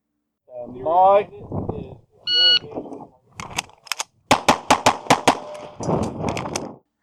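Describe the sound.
Gunshots fired rapidly on a shooting match stage come as a quick burst of sharp, loud cracks, with a person talking before and after.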